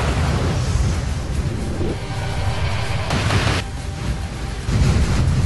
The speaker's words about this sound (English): Okay, Gunner, missile slow mode, target on bogey A, launch on my mark. Mark.